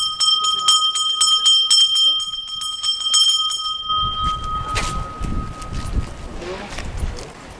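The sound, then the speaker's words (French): A bell rings in many rapid, bright strikes to call children in at nine in the morning at a school. The ringing lasts about four seconds, then gives way to rumbling wind buffeting the microphone. “Donc là, il est 9h. Je sonne.”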